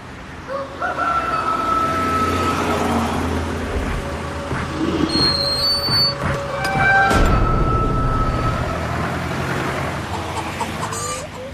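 A rooster and chickens in a henhouse: continuous clucking and cackling from several hens, with the rooster crowing among them, throughout a busy, steady stretch without talk.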